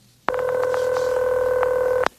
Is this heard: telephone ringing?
yes